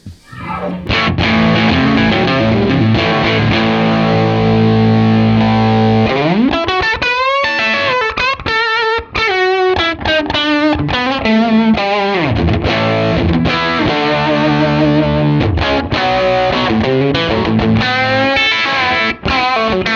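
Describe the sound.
A Telecaster electric guitar played through a tube amp, its tone shaped only by the guitar's tone and volume knobs and pickup selector: loud, crunchy, overdriven held chords give way to quicker note runs with a sliding bend, with no talk.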